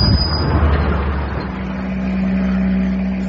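A van drives on during a chase in a radio drama, its engine a steady low rumble that holds throughout with no voices.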